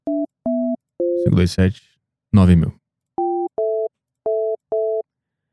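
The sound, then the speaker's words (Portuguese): Telephone keypad tones sound while someone dials a shop in Iceland. There are seven short, clean two-note beeps, three before and four after two brief bursts of voice. “Vamos ligar pro mercadinho na Islândia perguntar quanto é a coca lá.”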